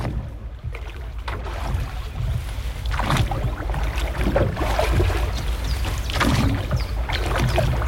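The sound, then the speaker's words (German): A rowboat moves on a lake, with water sloshing and washing steadily. Several oar splashes rise above the continuous wash. “Ein Ruderboot auf dem See. Erfrischend, oder?”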